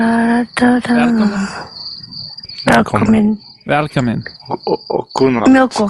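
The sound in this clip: Crickets chirp in a steady, high, continuous trill that runs through the whole clip, with louder intermittent sounds breaking in over it at moments.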